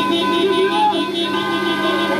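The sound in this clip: Loud, sustained horn tones blare from a long column of flag-decked cars circling a city in a street celebration. The layered, steady honking continues without a break throughout.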